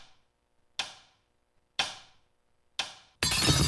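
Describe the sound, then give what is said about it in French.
A clock being smashed: three sharp, evenly spaced knocks ring out, then a loud, sustained crash of breaking glass fills the end. “Non, non, pas casser la montre.”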